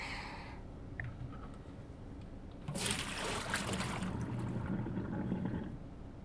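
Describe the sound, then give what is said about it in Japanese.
Water is emptied out of a washing-up tub at the end of doing the dishes. It begins as a faint trickle, then a louder rushing, splashing flow sets in partway through and keeps going steadily to the end. “あとは洗いおけのお水を流しちゃって”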